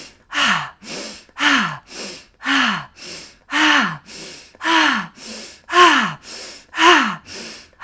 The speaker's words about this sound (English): You're going to inhale through the nose, exhale, pelvis back, inhale, pelvis forward, exhale, back, and it'll sound like this.